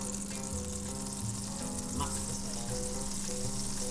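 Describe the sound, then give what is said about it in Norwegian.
Steady, fairly quiet sizzling from a frying pan heated to frying temperature, with a kitchen extractor fan running and a low, constant hum beneath the crackle. “Da setter jeg på den vifta her. For nå blir det virkelig fart på sakene perfekt temperatur i panna.”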